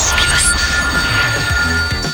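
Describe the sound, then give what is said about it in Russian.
A telephone rings for an incoming call to a phone-in quiz game. The ring is a steady, high electronic tone over a noisy background. It runs for a couple of seconds with no talking. “это программа «Большой куш», и я принимаю телефонный звонок.”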